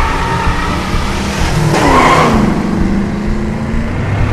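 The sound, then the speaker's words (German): A car engine revs and tires squeal as the car pulls away by itself, its steering wheel fixed and gas pedal held down. The roar is loud and continuous, with a sweeping pitch change in the middle. “Das Lenkrad ist fixiert, das Pedal gedrückt. Jetzt Gang rein.”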